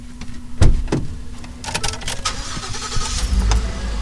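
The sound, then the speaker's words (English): Car interior sounds: a sharp thump or two early on, then a steady engine hum and rumble that runs throughout with some rattling. “Ward drives across town from his office to a rooming house in the Old North End”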